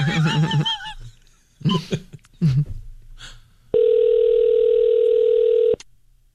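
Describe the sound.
Ringback tone while calling an office: one long, steady, mid-pitched tone of about two seconds, following a few brief, scattered sounds.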